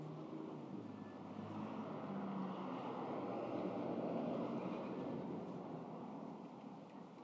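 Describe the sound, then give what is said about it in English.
Traffic noise from cars driving past a front yard in Arizona, a steady low, broad roar that slowly swells toward the middle and then eases off, with no voices. “Yes, there are still people driving about.”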